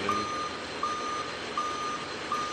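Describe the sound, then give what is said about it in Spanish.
Reversing beeps from a truck backing up: four steady, mid-pitched electronic beeps at an even pace over a constant engine rumble. “¿El tren? Un camión. Ah, alguien dando marcha atrás.”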